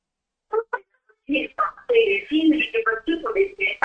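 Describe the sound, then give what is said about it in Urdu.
Television programme audio in the background of a caller's phone line from Dubai: muffled, band-limited voices come through in two short bursts, then run in a steady, choppy stream of phrases at moderate loudness. “T V programme چل رہا, بند کر دیجئے, آواز صاف ہو جائے گی.”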